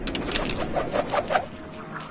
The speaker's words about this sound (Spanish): ¡Quiero ver un 7! Lanza los dados.